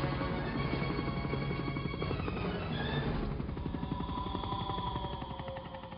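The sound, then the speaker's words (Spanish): A helicopter flies near a harbour at night in a film scene. Its rotor chops as a faint, rapid, even pulsing across the low range, with sustained tones sounding above it. “Un helicóptero vuela cerca del puerto con un foco de luz encendido.”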